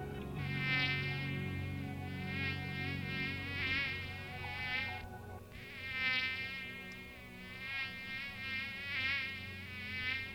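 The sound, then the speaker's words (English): A mosquito buzzing: a faint, thin, high-pitched whine that wavers continuously, breaks off briefly midway, then resumes, with no voices. “Yeah, that's a mosquito.”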